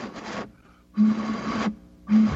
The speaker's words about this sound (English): You're trying to blow across a bottle.